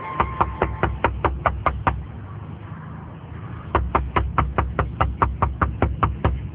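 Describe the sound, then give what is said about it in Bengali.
Knocking on a balcony door comes in two bursts of rapid, evenly spaced raps separated by a short pause, the second run longer than the first, sharp and fairly loud. “হঠাৎ বারান্দার তাতে knock করার শব্দ।”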